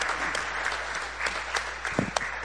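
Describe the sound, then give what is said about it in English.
A church audience applauds to welcome new members: steady, dense clapping from many hands, with a few sharper, louder claps standing out near the end. “Put your hands together for your new family members.”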